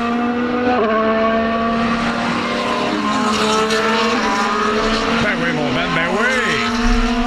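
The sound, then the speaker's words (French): Formula 1 race cars speeding around the Gilles Villeneuve racing circuit, a loud, sustained, high-revving engine whine with layered tones, while other cars' pitches sweep up and down toward the end as they pass. “On se sent au circuit Gilles Villeneuve. Là. C'est ça que je voulais. La magie de la radio, le théâtre de l'imaginaire. Je m'ennuie du son des V10, des V8.”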